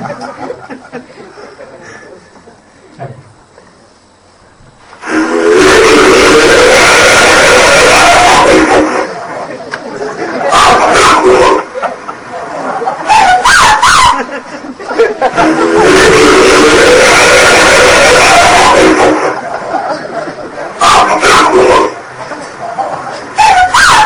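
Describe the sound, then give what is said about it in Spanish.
Alleged Bigfoot vocalizations from a 1978 recording in California's High Sierra: two long, loud, rough howling bursts separated by shorter harsh cries, standing out sharply against a quiet background. “se grabó también además en el año 1978, y es el que tanto Carlos como yo denominamos el Bigfoot cachondo”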